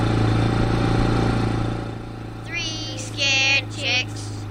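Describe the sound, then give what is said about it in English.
A loud ATV engine idles with a steady, low rumbling drone that eases slightly partway through, while a voice speaks over the later part. “But as harmless as that little old lady was, her ATV was loud.”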